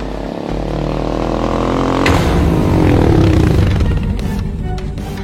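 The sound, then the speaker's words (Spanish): Vehicle engine arriving: a loud, sustained motor roar that grows slightly stronger partway through, with its engine pitch sliding downward afterward. “este es el vehículo de aquellos tipos.”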